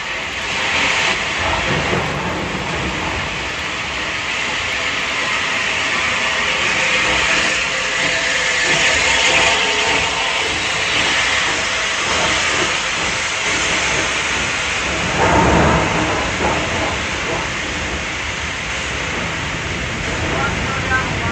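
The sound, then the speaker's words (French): A train pulls out of a station in England during a state funeral, a steady broad rumble with hiss and clatter that swells briefly near the end. “Le train quitte la gare.”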